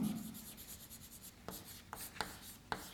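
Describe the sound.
Writing on a board during a maths lecture gives a faint, steady scratching of pen strokes, with a few sharper taps near the end.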